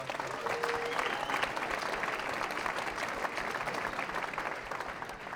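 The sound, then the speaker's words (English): Audience applause for a family singing group at a bluegrass and old-time music show: a dense, steady wash of clapping that holds at an even level through the whole clip, with no voices rising above it. “Let's hear it for the Roll Family Singers.”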